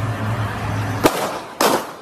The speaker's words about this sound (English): Knowing that those shots were done with the intent to kill or maim. Yeah. Oh. And here it is again, in case you missed it. It's so quick. Was it from that car?